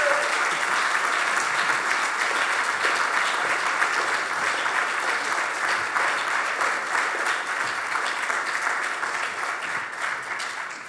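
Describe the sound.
Audience applause and cheering at an event on marijuana legalization, a dense, continuous patter of many hands clapping that stays strong and eases slightly toward the end.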